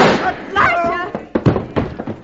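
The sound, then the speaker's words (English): A gunshot rings out in a radio drama as a sharp bang among overlapping excited voices and thumping noises. “Did he do the shooting, Mrs. Parker? He killed my husband.”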